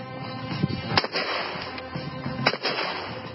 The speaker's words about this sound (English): We're going to test out this made-in-China double-barreled shotgun. If anything ever is going to blow up in your face, this is it.